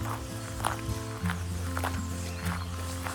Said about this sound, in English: The weather is clearing up and we're heading out for a post-lunch walk to the lake.